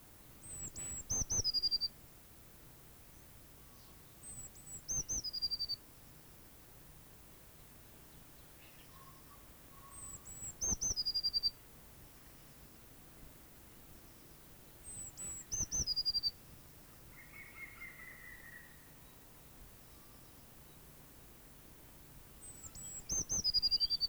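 Blue tit song: five short, thin, high-pitched phrases of quick descending notes, spaced evenly several seconds apart, faint over a steady soft background hiss.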